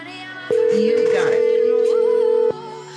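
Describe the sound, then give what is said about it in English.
Phone ringtone, a loud, steady electronic tone that sounds for about two seconds and then cuts off, with a voice talking underneath. “what the hell was that ringtone?”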